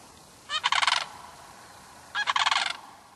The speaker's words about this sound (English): When a male and a female crane perform a unison call together, they've bonded and mate for life.